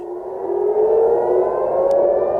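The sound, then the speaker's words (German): Civil defense air raid sirens wail across the Tel Aviv area during a rocket attack from Iran: a loud, sustained mid-pitched howl that rises gently in pitch and holds steady throughout, with no voices. “Am Nachmittag heulten wieder die Sirenen im Großraum Tel Aviv.”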